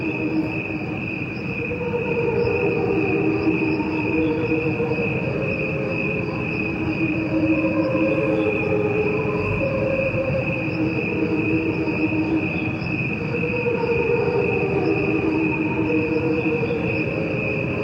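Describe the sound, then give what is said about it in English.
Crickets chirp in a steady, high, continuous trill, layered with a slowed-down version of the same recording that adds lower, gently swelling tones. Both play together throughout without a break. “What you are hearing is a recording of crickets. There are two tracks. One is played at regular speed, and the other is a slowed-down version.”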